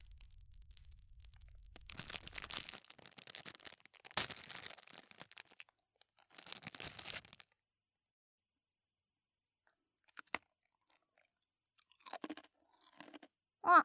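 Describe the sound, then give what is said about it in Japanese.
Crunchy chewing of salt rice crackers (shio senbei): several loud, dense bursts of crunching and biting, followed by a few sparse, brief crunches, with no talk. “お兄さんも一つどうぞ。おいしいよ、塩せんべい。”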